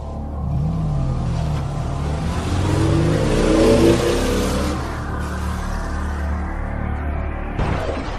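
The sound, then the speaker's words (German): A car engine starts up and the car drives off. The engine note revs and climbs in pitch, then settles into a steady rumble as it pulls away. “Er konnte Sigourney beobachten, als sie das Haus verließ und in ihren Wagen stieg. So, dann werden wir mal sehen, wo Sigourney hinfährt.”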